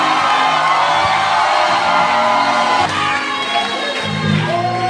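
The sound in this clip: A church audience shouts and cheers in welcome, a loud, steady roar of many voices with whoops rising through it, sustained for the whole clip.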